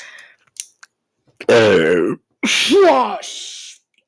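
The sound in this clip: A person burps from acid reflux: a couple of voiced, gurgling belches with wavering pitch, split by a short pause. A few small clicks and breaths come before them.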